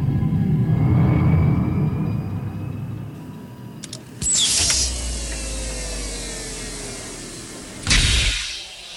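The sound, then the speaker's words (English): A spaceship's autopilot landing sequence in a video game: a low rumbling engine drone with thin whining tones, then a sudden heavy mechanical clunk with a hiss, and another sharp burst near the end. “Autopilot landing initiation sequence engaged.”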